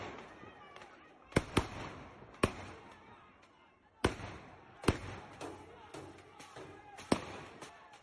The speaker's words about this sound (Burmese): မန္တလေးမြို့မှာဗုဒ္ဓဦးနေ့ညပိုင်းအမှောင်ကျချိန်မှာတော့လုံခြုံရေးတပ်ဖွဲ့ဝင်တွေရဲ့ပစ်ခတ်တံမျိုးစုံကိုကြားကြရပါတယ